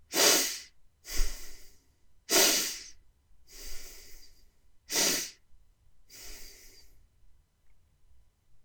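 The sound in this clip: Six loud breaths are heard alone in a demonstration breathing exercise that pairs sharp inhales with effortless, sigh-like exhales. Each rushes with airy hiss and is separated by short pauses.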